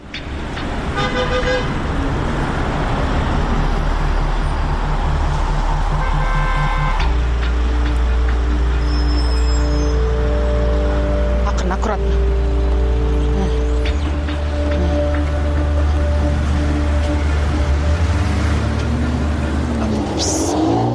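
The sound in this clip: A city bus rides through morning traffic with passengers on board, its engine a loud, continuous drone whose tone shifts as the bus changes speed.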